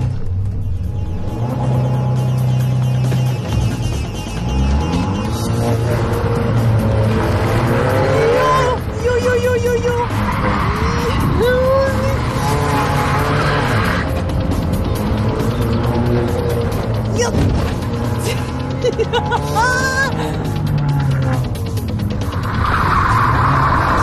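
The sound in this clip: A rally car from a rally driving school is driven hard around corners: a loud, continuous engine roar rising and falling with revs, broken by repeated tire squeals and skids.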